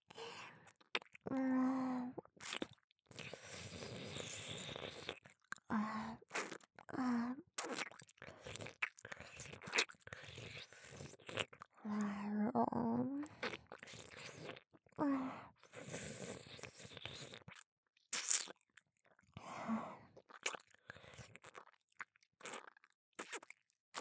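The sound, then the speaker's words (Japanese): Soft ASMR mouth sounds of nibbling and eating at an ear: many wet smacks, licks and crunchy chews, broken by breathy sighs and short voiced hums, all fairly faint with pauses between bursts. “お耳、気持ちいい？中まで食べてあげるね。”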